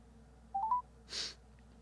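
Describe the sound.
Phone dialing a call: three brief, faint keypad tones in quick succession, each a little higher than the last, followed by a soft breathy burst.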